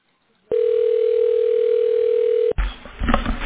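Telephone ringing tone while a call is transferred to a specialist: one steady, mid-pitched tone lasting about two seconds, cut off abruptly by a rush of line noise as the call connects.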